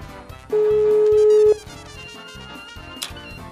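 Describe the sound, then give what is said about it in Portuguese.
Ringback tone on an outgoing phone call to a mother-in-law: one steady, mid-pitched tone lasting about a second, rising clearly above a quieter busy background, with no voices. “vamos ligar pra sogra de Pitbull. Vamos ver se vai dar certo.”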